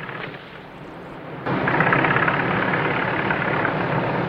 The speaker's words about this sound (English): Leo and Gordon arrive in the car, and they both get out and run to Ellen.